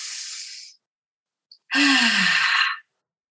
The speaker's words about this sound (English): So let's take a deep breath right now.